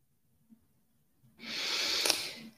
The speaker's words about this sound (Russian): И опять же такой стройный вдох, выдох.